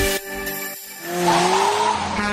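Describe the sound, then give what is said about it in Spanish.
A car's tires squeal as it runs a stop sign. A sustained high screech builds over engine noise from about a second in and holds loudly to the end. “¡Qué bárbaro! Se brincó el alto. ¡Ey, usted, conductor!”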